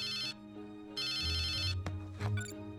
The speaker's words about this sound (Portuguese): Você quer atender?